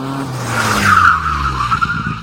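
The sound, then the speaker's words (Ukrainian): Tyres squeal as a car skids on a busy road: a sustained, high, whining screech runs for about two seconds over a low engine rumble, loud and steady before it wavers and fades slightly. “ти ледь не потрапив під машину”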